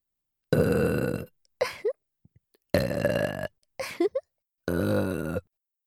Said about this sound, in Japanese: ゲップ失礼しまーす